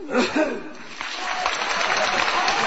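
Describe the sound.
An audience claps at a live comic performance, with scattered laughter mixed in, and the applause settles into a dense, steady patter that carries on to the end.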